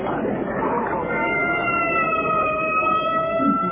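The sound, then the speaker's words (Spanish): An ambulance siren sounds in a street of a Chinese quarter, with steady wailing tones over a continuous noisy background. “una ambulancia. Sí, es verdad. Se ha detenido en aquel callejón.”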